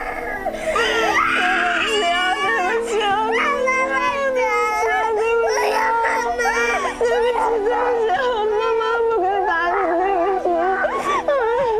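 Baby crying in continuous, wavering wails and sobs that rise and fall in pitch, loud and sustained throughout, over a steady low hum.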